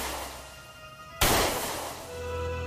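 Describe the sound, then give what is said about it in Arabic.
A single gunshot fired during a chase, one sudden sharp crack that decays slowly over a steady low hum. “الصوت ده كان صوت ضرب نار خلانا أقف. الطلقة التالتة دي أكيد هتيجي فيا.”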